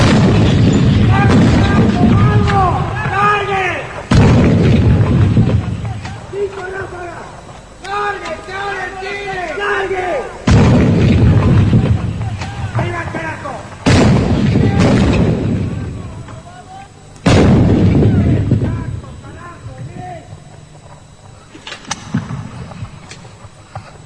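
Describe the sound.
Guns or cannons firing on command: several heavy booming blasts at irregular intervals, each with a long rumbling tail, with shouted voices between the shots.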